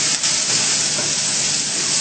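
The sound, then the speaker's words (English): Drops of Maggi seasoning sizzling in a hot cooking pan, a steady, dense hiss that holds at an even level for the whole clip with no talk. “So now I get in a few drops of Maggi. Like half a teaspoon, a few drops. Yeah, and make it together.”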